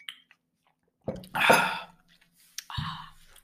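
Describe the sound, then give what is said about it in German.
Someone eats chocolate: a few crunchy bites and wet chewing sounds, mixed with brief vocal noises. “du erzählst doch eh gerade von deinem Käse, dann kann ich doch meine Schokolade essen.”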